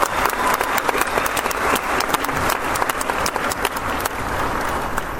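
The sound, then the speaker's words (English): An 8th grade graduation audience gives a round of applause, a dense, loud, steady clatter of many hands clapping that continues for several seconds. “All right, before I start, can we give Frankie another round of applause? That was awesome.”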